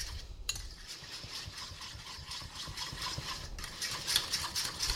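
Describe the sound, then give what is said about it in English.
Rapid, rhythmic clinking and scraping of a fork whisking raw eggs in a bowl, a steady busy patter that grows slightly louder toward the end. “you can just use the fork that we were using to scramble the eggs, which is what I'm going to do. Whisk them together.”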